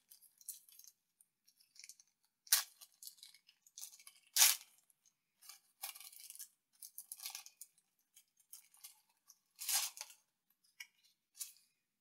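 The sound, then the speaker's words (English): Packs of G.I. Joe trading cards being torn open and handled: many crisp crinkles and ripping tears in irregular bursts, faint and high-pitched throughout. “Three packs of G.I. Joe cards. Let's open them up, see what we got.”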